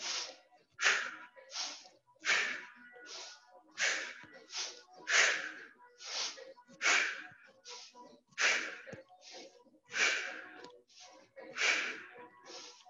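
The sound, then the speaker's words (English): Rhythmic, forceful breathing from a breathing exercise: many quick, noisy inhales and exhales in a steady, rapid cycle, moderately loud and with no talk. “Try to only concentrate on this area here. Inhale, exhale. I do it from the side so you can see.”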